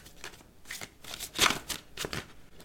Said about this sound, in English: So I'm going to pull just one more card.